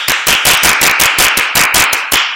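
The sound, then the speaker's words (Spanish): One person claps hands during a business meeting talk to show how to applaud: many sharp, crisp claps in a steady, fairly quick rhythm, loud and alone with no voices. “Y mira, hay una diferencia en aplaudir así y una diferencia en aplaudir así.”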